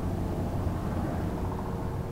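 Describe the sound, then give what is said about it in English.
Security helicopter hired by TMX circling and patrolling over Burrard Inlet by the Tsleil-Waututh Nation shore, heard as a steady, dense low rumble that holds evenly throughout with no clear voices. “See, he's just circling. Partway into my interview with Charlene, the Tsleil Waututh counselor, a helicopter owned by security, hired by TMX to patrol the area,”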